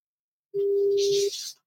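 A telephone dial tone: a steady, low, pure tone lasting under a second, followed by a brief hiss.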